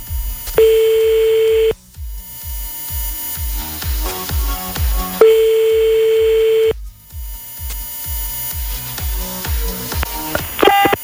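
Ringback tone of an unanswered phone call: two long, steady mid-pitched beeps several seconds apart over a rhythmic thumping backdrop, then a brief flurry of dialing key tones at the very end as another number is called.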